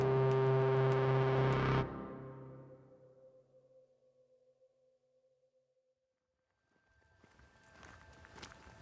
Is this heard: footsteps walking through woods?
yes